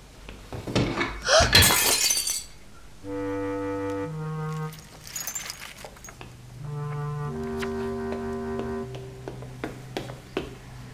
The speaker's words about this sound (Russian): Берет книгу за фотографией, где они втроем, и случайно задевает ее. Да нет, она падает и разбивается.